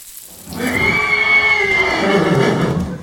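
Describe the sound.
A horse that has run loose lets out one long, loud whinny with a shrill, quavering tone over steady background noise.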